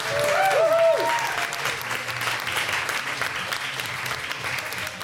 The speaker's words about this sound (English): Before we go, though, I'd love you to give a warm round of applause to our wonderful guests.